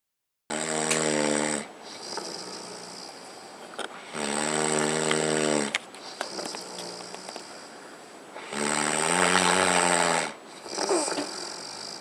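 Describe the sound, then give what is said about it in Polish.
Three loud, buzzy, rasping snores sound one after another, each lasting over a second, with quieter breathing noise in the pauses between them. “Chrapanie.”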